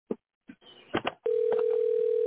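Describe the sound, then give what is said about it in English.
A steady, loud telephone dial tone sounds while someone is being called. A few short clicks and handling noises come before it, and then the tone holds unbroken to the end. “One ringy dingy and two ringy dingies. All right. Okay. Let's dial his ass up.”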